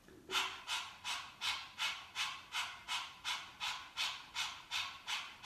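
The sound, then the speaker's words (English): Quick panting breaths with the tongue out, done as a breath of fire yoga exercise: a long, steady run of evenly spaced, hissing breaths at about two per second, soft and without talk. “just pant with me for a few moments, like this.”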